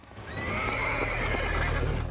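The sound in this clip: A horse tied to a wooden post neighs in one loud whinny that lasts about two seconds.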